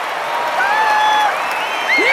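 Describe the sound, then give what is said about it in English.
Crowd cheering wildly for the Cubs as runners score in a baseball game, a steady wash of noise with a few thin whistles rising and sliding above it throughout. “The Cubs in the dugout cheer wildly as the runners scamper home and high-five each other.”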